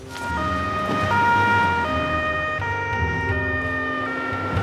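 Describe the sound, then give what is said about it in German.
An ambulance siren sounds its two-tone call, alternating steadily between a higher and a lower pitch about every 0.7 seconds over a low, continuous vehicle rumble. “wir brauchen noch einen Rettungswagen sofort.”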